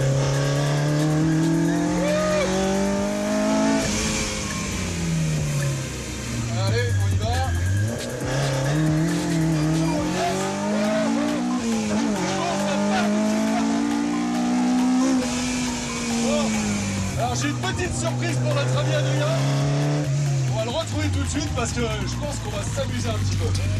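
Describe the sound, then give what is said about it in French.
The engine of a Mini driven hard on a race circuit near Dreux rises and falls with repeated revving through the gears. Tire squeal comes through over continuous talk from people in the car. “à Dreux, juste histoire de chercher les limites de cette mini. Qu'est-ce que ça marche ? Alors là, on est sur le circuit de l'Ouest parisien, on va pouvoir se lâcher un peu quand même.”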